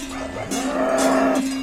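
A cow from a large herd moos on a pasture, one low, drawn-out call lasting over a second and sounding alone.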